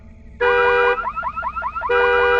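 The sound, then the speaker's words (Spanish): A car alarm suddenly blares in a roofed space: a loud steady tone, then a run of rapid warbling chirps, then the steady tone returns. “La alarma del carro se activó sorpresivamente, lo cual me hizo saltar.”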